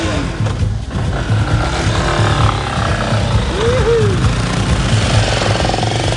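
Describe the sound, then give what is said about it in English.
A moto taxi motorcycle engine running loud and steady with a rough, rattling drone, and voices over it. “Man, it's a moto taxi. It's Angela's boyfriend's moto taxi. He will kill us. Cool. We have to be quick. Get on!”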